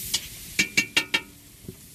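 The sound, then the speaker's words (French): Metallic clinks of a utensil against a pot as a woman cooks rice in tomato sauce in a tent on a hilltop in a forest: a few sharp, bright taps, four in quick succession, then a fainter one, with no voices. “Une femme est en train de cuisiner du riz à la sauce tomate.”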